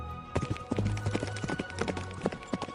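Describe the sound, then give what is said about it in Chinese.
Hooves of a horse-drawn carriage clip-clop at a brisk pace in a quick, steady rhythm of many sharp knocks. No voices are heard. “看见前方有一座森林，三人的马车快步加鞭地前进。”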